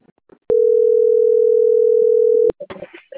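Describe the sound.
A telephone tone while placing a call: one steady, loud, mid-pitched electronic beep lasting about two seconds on its own. Faint voices come just before it, and a voice starts right after it ends.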